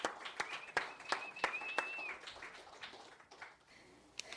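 Audience applause dwindles to sparse, scattered hand claps, fairly faint, with a sustained whistle cutting across it partway through before the clapping thins out.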